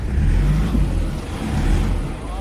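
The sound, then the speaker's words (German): A vehicle engine revving hard on a narrow, barely built, muddy road out of Kathmandu, where tyres often spin. A loud, steady, low roar runs throughout. “Wenn die Reifen durchdrehen, hilft kein Gas geben mehr. Und das passiert häufig auf der schmalen, kaum ausgebauten Straße von Kathmandu in den Katastrophenbezirk Rojwar.”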